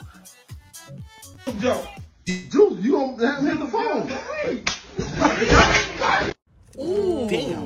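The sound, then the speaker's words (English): A hard smack as someone is struck and his head hits a TV, a sharp slap amid excited voices talking. “You know he smacked him hard because when his head hit the TV, the input changed.”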